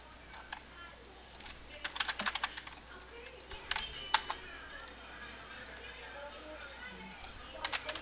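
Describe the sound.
Keyboard typing as someone writes a message during a customer-service phone call: irregular bursts of quick, light key clicks with short pauses between clusters, fairly faint overall.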